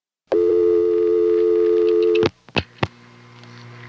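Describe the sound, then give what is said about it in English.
A telephone permanent signal tone from a crossbar exchange at a bus station payphone in Baltimore, 1974: a loud, steady buzzing tone holds for about two seconds, cuts off abruptly, and is followed by a few sharp clicks on the line. “Oh, permanent signal.”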